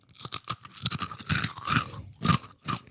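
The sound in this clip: Crispbread being bitten into and chewed, giving many sharp, dry crunches in an uneven rhythm, each a brief crackling burst, heard alone without talk.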